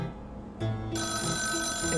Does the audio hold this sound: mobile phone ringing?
yes